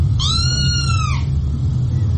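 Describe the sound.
A single drawn-out cat meow lasts about a second and stands out clearly over a steady low rumble that continues after the call ends.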